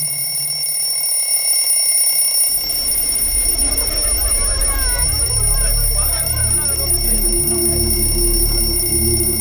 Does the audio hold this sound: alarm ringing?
yes